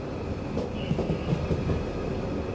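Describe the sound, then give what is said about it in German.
Train on the Meran–Bozen railway line in South Tyrol: a steady low rumble with faint rhythmic wheel clatter and a thin high tone running throughout. “Für mich ist die Bahnstrecke Meran-Bozen und retour ein wichtiges Anliegen, diese Strecke mit der Bahn zu fahren.”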